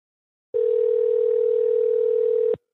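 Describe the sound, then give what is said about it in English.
A telephone ringback tone on an outgoing call sounds as one steady, continuous electronic tone of about two seconds, starting and stopping abruptly, alone with no voices. “Well, this is ringing way too long to be a voicemail.”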